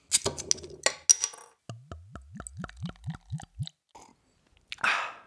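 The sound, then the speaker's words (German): A bottle of Radeberger beer being drunk: a few glassy clinks, then a rapid, evenly spaced run of pitched gulping glugs, quiet and alone, ending with a short breathy burst after a pause. “Dazu trinke ich heute ein Radeberger, denn das war im Angebot und ich dachte, mir, oh, warum nicht? Also, cheers.”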